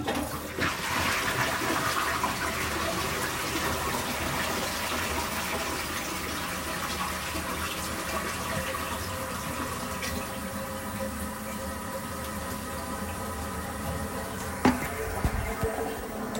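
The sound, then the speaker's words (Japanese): A soiled toilet is flushed, its water rushing and gurgling in a steady, fairly faint stream that continues for the whole stretch with no voices. “便器が大変なことになっている流してきます。”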